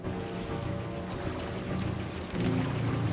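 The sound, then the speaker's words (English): Water floods into the cockpit of a ditched Spitfire floating on the sea, a dense, steady rushing and pouring that swells louder toward the end over a low rumble. “the cockpit rapidly begins to fill with water”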